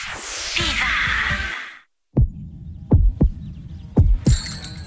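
A heartbeat sound effect plays as deep, low thumps in lub-dub pairs. They follow a noisy whooshing wash and a short silence, and a bright hiss enters at the very end.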